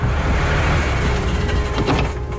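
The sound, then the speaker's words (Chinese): A truck pulling up at the entrance of a quiet alley gives a loud, steady engine rumble with broad road noise that continues through the whole sound. “一辆卡车缓缓地停了下来”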